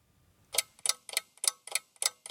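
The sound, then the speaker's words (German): Ticking from a tall, tower-like mechanical wooden clock on an outdoor art trail in Oulu: seven crisp, bright clicks at a steady, brisk beat, fairly quiet and heard alone after a faint low rumble. “Ich stehe vor einer turmartigen mechanischen Holzuhr.”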